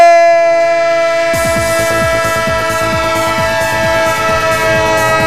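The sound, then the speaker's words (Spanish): A sound-effect train horn holds a loud, steady, multi-toned blast throughout. After about a second, rhythmic clattering of rail wheels joins it and repeats at an even pace. “El tren de Onda Cero, el tren que como decimos está ya con los primeros metros de esta jornada que es la número 36 en Primera División Liga Santander”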